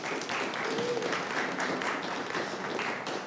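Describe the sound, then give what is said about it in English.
Audience applause at a talk on stress and security, a continuous, dense wash of clapping from many hands that stays at an even level. “Hey, quick, I would love for just a subtle yet enthusiastic applause for the Daniel Mothershed”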